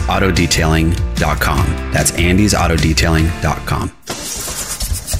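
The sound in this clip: A struggling diesel truck engine cranks roughly for about a second at the end, right after a stretch of talking.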